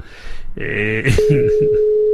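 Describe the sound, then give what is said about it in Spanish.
A telephone line tone, a steady single-pitched electronic tone that starts partway through and holds to the end, heard after and under a brief stretch of voice. “No me coge el teléfono ahora, cago en la mar.”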